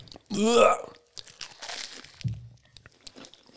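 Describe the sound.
A crunching bite into a sweet that is put whole into the mouth, one short crisp crunch mixed with a vocal cry, followed by softer chewing noises and voices.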